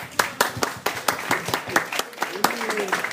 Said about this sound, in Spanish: Bueno, un aplauso.